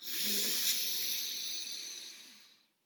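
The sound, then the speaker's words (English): A slow diaphragmatic inhalation through the nose during a guided meditation: one long, soft, airy breath in that holds steady, then fades away into silence. “Start your diaphragmatic inhalation, so breathing into your nose,”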